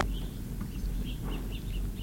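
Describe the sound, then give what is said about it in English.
Acorn woodpeckers, three or four birds, give many short, high, faint calls in an uneven series over a steady low background noise. “Acorn woodpeckers, three of them. Four.”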